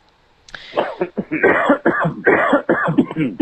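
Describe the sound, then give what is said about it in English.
A coughing fit comes in many rapid, harsh bursts that follow one another with barely a pause, loud and husky, after a moment of quiet. “Got a little cough going there.”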